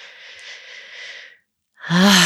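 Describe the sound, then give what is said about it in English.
A long, steady breath exhaled out through the mouth, a soft airy hiss lasting over a second. It stops, there is a short silence, and then a voice begins. “And then exhale, again out through your mouth, release your shoulders down.”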